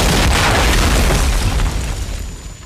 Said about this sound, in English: This is when insurgents wait, sighted in with their AK-47s, waiting for the IED to detonate.